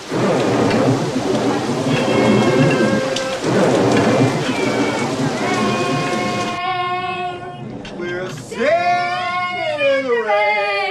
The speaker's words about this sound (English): Rain pours outside the Marvin's house.